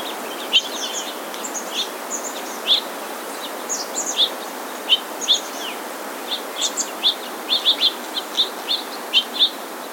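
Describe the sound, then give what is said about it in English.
Ruddy Turnstone calls come as many short, sharp, high chirps, scattered and growing more frequent toward the end, over a steady faint hiss. “Ruddy Turnstone.”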